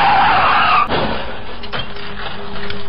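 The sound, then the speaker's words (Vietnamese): A motorbike skids on a road as both brakes are clamped hard, giving a loud, broad scraping rush for just under a second before it cuts off into a lower, steady noise. “Tôi lúc này hoảng loạn thật sự, sự sợ hãi lên đến tột độ và theo phản xạ tôi bóp chết hai phanh của xe.”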